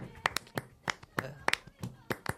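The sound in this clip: Flamenco-style palmas: sharp, crisp hand claps in a quick, uneven rhythm, with voices talking over and between them.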